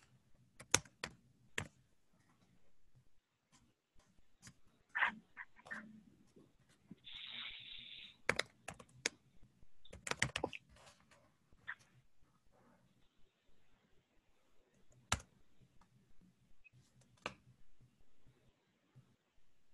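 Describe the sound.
Keystrokes on a computer keyboard come in irregular, sparse bursts with pauses between them. The clicks are faint and scattered throughout.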